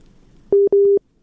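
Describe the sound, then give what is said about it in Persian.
Busy tone after a listener's phone call from Kabul dropped: two loud, steady mid-pitched beeps, each roughly a quarter second long, separated by a very short gap, with no voices. “تماس شنونده ما فکر کنم قطع شد، از کابل تماس گرفته بود.”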